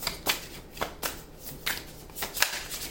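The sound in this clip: A deck of tarot cards is shuffled in repeated quick, papery riffles, each a brief rustling burst in a steady rhythm. The sound is fairly faint, and no one speaks.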